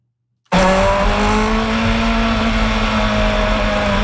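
IndyCar race cars roar on a racing circuit in Markham, Toronto. After a moment of silence, a loud, sustained engine drone cuts in abruptly and holds to the end, its tone drifting slightly lower.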